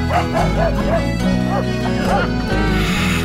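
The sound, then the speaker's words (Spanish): Two big dogs barking, with many quick, yelping barks repeating over a loud, continuous tonal background. “Pues vio que con cara de pocos amigos, dos perros grandotes ladraban.”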